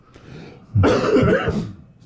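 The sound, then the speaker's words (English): A single harsh, throaty cough, a loud rasping burst that lasts just under a second after a quiet start. “Cough into your sleeve.”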